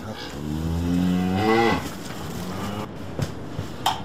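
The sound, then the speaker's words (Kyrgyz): Cattle mooing at a rural home, one long low lowing call that rises and then breaks off, followed by quieter background noise and a couple of faint knocks. “Мугалимдик ишинен тышкары мынтип үйдө мал кармайт.”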